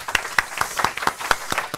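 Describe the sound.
Audience applause thanking a panel at the close of a policy event: steady, rapid clapping that keeps an even rhythm throughout.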